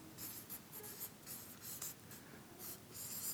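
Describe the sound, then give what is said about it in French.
Hand drawing and writing on a surface, a run of many scratchy, irregular strokes of varying length with no talk. “Je vais un peu dessiner puis écrire.”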